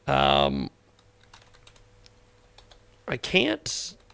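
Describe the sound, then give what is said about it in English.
Typing on a computer keyboard during a radio show, faint quick key clicks for a couple of seconds between short stretches of a man speaking. “I can't seem to type and talk at the same time on the air.”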